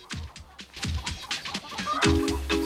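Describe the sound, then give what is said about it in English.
Chickens cluck in their garden enclosure in the morning, many short, throaty clucks and bucks overlapping in an uneven rhythm, moderately loud with no talk over them. “He then walks to the chicken enclosure.”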